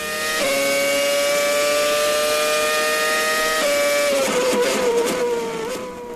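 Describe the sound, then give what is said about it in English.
A Formula One race car engine screams at high revs in a loud, sustained whine that holds a steady pitch most of the way and dips slightly near the end. “Yeah, it's sort of like a Formula One race.”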